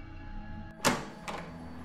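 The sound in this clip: Two sharp knocks on an office door ring out one after the other, the first slightly louder, against an otherwise quiet background with a low steady hum.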